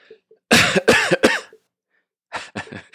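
Deliberate coughing: a quick series of harsh, forceful coughs, then a short pause and a second cluster of coughs.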